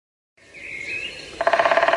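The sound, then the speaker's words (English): A woodpecker's beak drums on wood: a fast, even burst of many sharp taps, preceded by a thin, wavering whistle-like tone. “That is the sound of a woodpecker's beak, moving at some 6 meters per second, bashing into wood”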